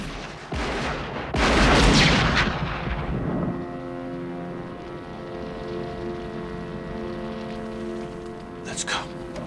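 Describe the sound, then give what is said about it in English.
Gunfire as a group of men opens fire on a man running out of a roadhouse: loud, dense bursts over the first two and a half seconds, then a quieter, steady tonal drone. “Doyle's men open fire on Giorgio.”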